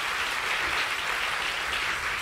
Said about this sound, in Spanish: dele un aplauso al Señor. Déselo, déselo, déselo, déselo.